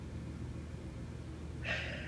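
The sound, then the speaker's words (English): A deep breath drawn in near the end of a guided affirmation session, a short soft breathy rush rising over a steady low hum. “We are centered and empowered in all moments. Good. Take a deep breath.”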